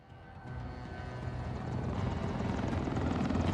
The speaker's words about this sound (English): all real helicopter work. The Black Hawk pilots were insane.